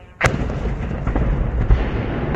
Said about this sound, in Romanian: În imagini se observă atât dronele, cât și exploziile în zona porturilor.